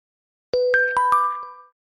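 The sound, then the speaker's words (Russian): A phone notification chime announces a new email with four quick bell-like tones in a short melodic sequence. The notes are bright and clear, with ringing tails that blend and then fade out together. “Пискнуло уведомление о новом письме.”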